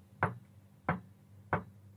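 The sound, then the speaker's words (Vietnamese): Knocking on a door: three evenly spaced, dull knocks, fairly faint and alone, with quiet between each rap. “thì bên ngoài, cánh cửa kia lại tiếp tục vang lên những tiếng gõ.”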